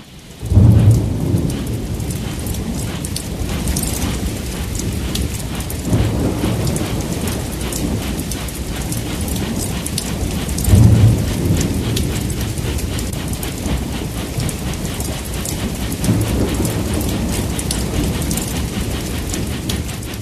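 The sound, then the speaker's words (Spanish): Heavy rain pours down steadily while a train travels, with several low thunder rumbles swelling through the constant hiss of the downpour. “Julio Ortiz de Zárate, mirando por las ventanillas del tren justo cuando comenzaba a llover copiosamente.”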